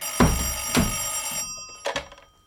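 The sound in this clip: A telephone bell rings in three loud, jangling bursts, each with a metallic ringing tail, and no one speaks.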